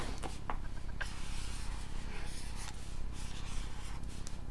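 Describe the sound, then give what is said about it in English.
A diagram is drawn on paper with a pen or marker, a faint, continuous scratching and rubbing broken by a few sharper strokes. “I'm gonna draw you guys a photo. Okay, draw you a photo draw a diagram of what this thing looks like.”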